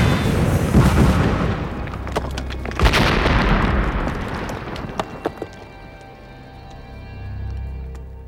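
A blast blows up a sugar factory and a tunnel in a pine forest, with heavy booming bursts near the start and again about a third of the way in. A long rumble follows, fading out with a few scattered sharp cracks.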